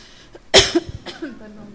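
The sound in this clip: A single sharp cough from a slightly hoarse woman bursts out abruptly, followed by a softer short vocal sound and quiet breathy noise.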